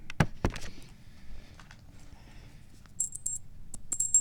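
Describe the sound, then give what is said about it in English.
A small jingle is shaken before being taped onto an instrument, giving a few soft taps and then short bursts of bright, high metallic tinkling. “There's the little jingle. I'm going to tape it right here.”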